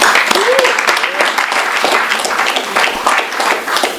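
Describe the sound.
An audience applauds to welcome a speaker at an evening event: loud, dense clapping sustained evenly for about four seconds, with no pause or clear rise or fall.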